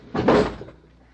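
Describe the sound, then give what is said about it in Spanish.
A drawer slides shut with a single short, hollow knock that fades quickly, heard alone without talk. “Cierra ese cajón.”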